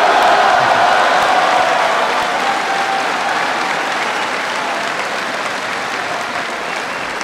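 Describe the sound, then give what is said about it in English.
Sustained applause from an audience at a speech, following a line about raising military pay. It is loud and steady for the whole stretch and fades only slightly toward the end. “I figured that'd be an applause line, Secretary Gates.”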